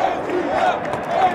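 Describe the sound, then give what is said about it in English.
Sold-out crowd cheering at an Atlanta United soccer game in Georgia Tech's Bobby Dodd Stadium, a dense, steady roar of many voices with a few shouts rising above it, brief. “That's the sound of the team selling out 55,000 seats at its temporary home in Georgia Tech's Bobby Dodd Stadium this March.”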